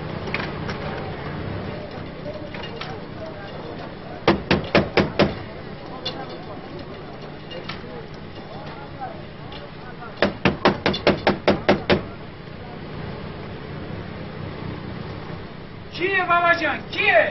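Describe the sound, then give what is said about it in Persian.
Banging on a door with a stick comes in two bursts of several quick, sharp strikes, separated by quieter stretches of background noise. “صد دفعه به تو گفتم با این باتونه و این دره نزن”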